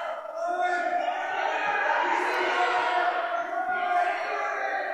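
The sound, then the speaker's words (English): An unhappy basketball crowd reacts to a referee's call in a Lady Owls game, a steady, loud roar of many voices lasting several seconds without pause. “The crowd's not happy.”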